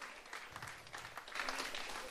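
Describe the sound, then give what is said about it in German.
Short, modest applause from a poetry slam audience: soft, fairly faint clapping that thickens slightly toward the end, with no voices standing out. “Und das war ein schöner kleiner Applaus.”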